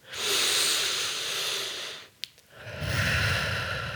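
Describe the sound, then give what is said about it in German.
Deep, slow breathing in a seated guided meditation with eyes closed: two long, fairly loud airy breaths, each a steady rush of air, separated by a short quiet gap. “Und dann atme gerne tief durch.”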